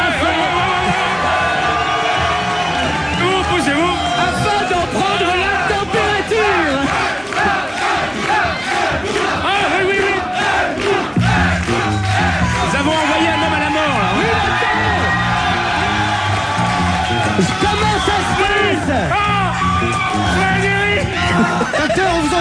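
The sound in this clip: A packed crowd cheering and yelling at a hot live event, a dense, loud, unbroken roar of whoops and shouts that keeps going for the whole stretch.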